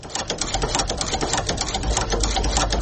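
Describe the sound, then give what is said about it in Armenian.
A village shoemaker's sewing machine runs in Koghb, in Armenia's Tavush region, a rapid, steady clatter of stitching that holds a fast, even rhythm from start to finish. “Կողբի բոլորին հայտնի կոշկակար Սերգեյ Յարալյանի կարի մեքենայի ձայնն է։”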